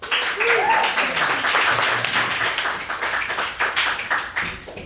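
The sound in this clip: An audience applauds to welcome a performer at a live music show, with steady clapping for several seconds and a voice or cheer rising briefly near the start.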